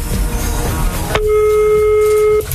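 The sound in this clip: Ringback tone of an outgoing telephone call to a radio listener, one steady electronic tone held for over a second, coming in after a stretch of busy background sound and cutting off abruptly.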